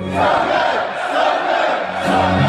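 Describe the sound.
A stadium crowd chants its own invented response refrain during a song at a sports game, a loud, massed roar of many voices swelling in unison.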